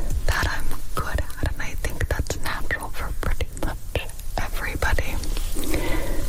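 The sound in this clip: In an ASMR recording, soft whispering is layered with close crackling, tapping and watery fizzing sounds. The irregular clicks and rustles form a busy, intimate texture throughout.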